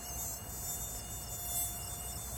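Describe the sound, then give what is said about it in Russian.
Mosquitoes buzz inside a tent at night, a thin, continuous high whine that stays faint and steady throughout, with no voices. “В палатке комары.”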